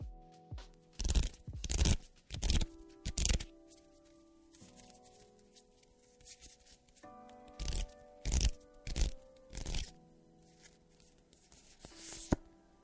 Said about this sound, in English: I will be pulling a card at random from my affirmations card deck by Gabrielle Bernstein.